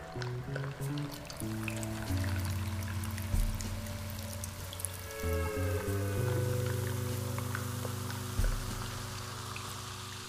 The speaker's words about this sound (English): Watching liquids flow from a large container to a small container is a delight.